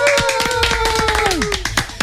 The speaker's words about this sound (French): Une horde d'applaudissements pour Noah, s'il vous plaît.